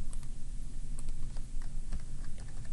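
A computer key is pressed to confirm a dialog, heard as faint, light keyboard clicks and taps over a steady background hiss.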